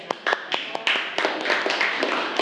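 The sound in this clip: A class of students claps for a classmate, with many overlapping hand claps forming a steady, moderately loud patter of applause.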